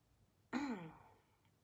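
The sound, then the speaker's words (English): A single deep, sighing breath out before a meditation begins. It starts abruptly after a moment of near silence, then gently tapers away, and is quiet and alone. “Just taking a few deep breaths here as we prepare to begin.”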